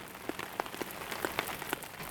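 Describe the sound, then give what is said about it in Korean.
Raindrops fall on a sketchbook as an ink painter works in the rain. Soft, irregular taps patter across the paper, a few slightly sharper than the rest, over a faint wash of rain. “스케치북에 빗방울이 떨어져 어지럽기까지 한대요.”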